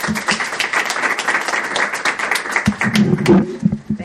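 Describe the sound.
Steady audience applause welcoming presenters to the stage before a talk on genetics and nutrition, a continuous wash of clapping at moderate level throughout.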